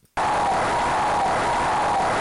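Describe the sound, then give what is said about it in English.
Synthesized crowd cheer from the NES game Mike Tyson's Punch-Out, a steady, hissy roar that starts abruptly after a brief near-silence and holds at an even, loud level throughout. “Was that Punch Out? Yeah, it was just sort of the generic NES cheer. Oh, yeah. It reminded me of beating Piston Honda in Mike Tyson's Punch Out.”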